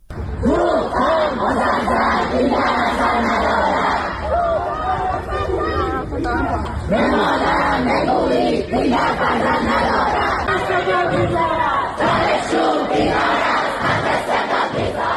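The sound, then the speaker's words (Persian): Protesting university students in Tehran chant loudly together, with a dense, sustained crowd roar and rhythmic group shouting that continues without pause through the whole stretch. “این صدای اعتراض دانشجویان دانشگاه علامه طباطبایی در تهران است.”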